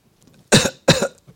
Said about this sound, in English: Coughing, even if you just cough like that, you did something